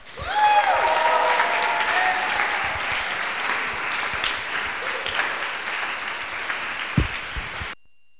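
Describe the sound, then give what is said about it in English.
Audience applause welcoming a pastor to the stage at a church gathering: dense, sustained clapping that starts loud, slowly thins, and then stops abruptly near the end. “So if you guys give a warm welcome to Pastor Jimmy.”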